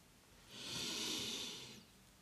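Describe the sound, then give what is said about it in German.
One slow, deep breath taken during a breathing exercise, a soft airy hiss that swells and then fades away, faint and alone. “Atme mehrmals tief ein und aus.”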